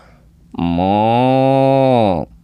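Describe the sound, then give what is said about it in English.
A person imitates a cow mooing with one sustained, loud, low, buzzy voiced moo lasting nearly two seconds. The pitch holds fairly steady before the sound cuts off sharply. “Now give me your best cow noise. On all right, cow noise.”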